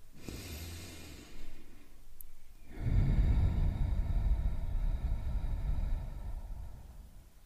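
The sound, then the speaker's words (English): A deep breath in and out, taken at the start of a guided gratitude exercise: a soft airy stretch gives way to a fuller, steady rush of breath that holds for several seconds. No one speaks. “Let's begin, like always, with a deep breath in and a deep breath out.”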